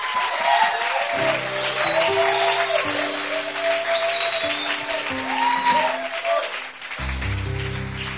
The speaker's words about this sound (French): Est-ce que tu peux acclamer pour ces cris de joie?